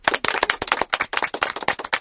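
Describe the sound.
Hand clapping, a rapid, irregular burst of many sharp slaps that comes in quick succession and fairly loud, with no talk over it.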